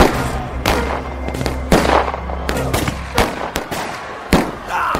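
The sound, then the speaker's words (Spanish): Gunshots are fired into the air as a warning during a tense standoff: many sharp, loud cracks in an irregular rapid series over a rumbling, noisy background. “¡No disparen! ¡Solo era para asustarlos! ¡Ay, Dios! ¡Puta madre! Creo que le dimos a alguien. ¿Qué les pasa? ¡Fui muy claro! ¡Solo disparos al aire!”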